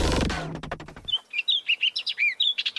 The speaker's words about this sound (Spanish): La calandria castaña, Icterus spurius.